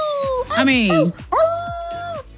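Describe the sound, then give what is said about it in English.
A person imitates a wolf howl with their voice in two drawn-out, loud, tonal phrases. The first wavers and bends in pitch, and the second holds a steadier sustained tone before cutting off. “How do we feel about my howl?”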